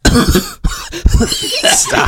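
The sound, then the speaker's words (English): A voice imitates coughing while trying to cover a fart, producing a few loud, rough, throaty cough-like bursts in quick succession. “You're trying to cough through the fart.”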